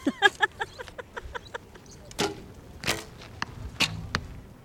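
Arrows shot at a target in archery practice with an archery association: a long series of sharp, fairly faint thwacks and clicks at irregular intervals, closer together at first and more spaced out later.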